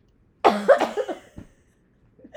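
Coughing from dust caught in the throat: a harsh first cough followed by a few rougher, fading coughs, then quiet with a faint catch at the end.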